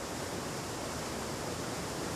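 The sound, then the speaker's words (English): A churning river rushes through a forest, swirling around rock corners and splashing over the edge of a slope. Its steady, dense roar of water holds even throughout with no voices. “A churning river rushes through a forest, forming eddies around rock corners and splashing over the edge of a slope.”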